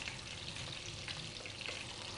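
Zucchini browning in a frying pan gives a faint, steady crackling sizzle with a few small pops, and no voices.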